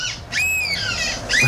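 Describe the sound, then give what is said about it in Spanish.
People imitate seagull calls with their voices, giving a few high, wavering squawks that sweep up and down in pitch, loud and without other talk. “Escucha, tenemos los audios de algunas gaviotas. Esos son humanos imitando a gaviotas.”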